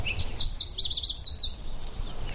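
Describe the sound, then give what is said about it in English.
Birdsong from a mix of nesting-season species, including chat, catbird, towhees, hummingbird, yellow warbler and Virginia's warbler, in a canyon. A quick run of high, bright chirping notes rises over a soft hiss, then the song thins out toward the end. “We have a chat, catbird, towhees, hummingbird, yellow warbler, Virginia's warbler up here. And they're all singing, they're all in full voice trying to establish and defend their nesting territories.”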